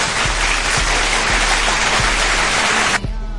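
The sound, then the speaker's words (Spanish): Loud, dense audience applause welcoming a new presenter on a Saturday program. It holds steady for about three seconds, then cuts off abruptly. “Así que ustedes recíbanla con un fuerte aplauso, por favor.”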